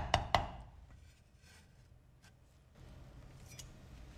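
A knife chops red-oil chili bean paste on a cutting board: two sharp, loud chops close together at the start, then only faint low background rumble for the rest.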